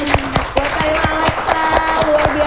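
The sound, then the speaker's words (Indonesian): An audience claps together in a steady, evenly spaced rhythm. Many sharp hand claps land over a faint sustained tone and stay loud throughout. “Sekali lagi kita tepuk tangan dulu.”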